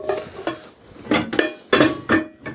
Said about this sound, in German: Und dafür nehme ich mir einen passenden Topf bei mir aus dem Regal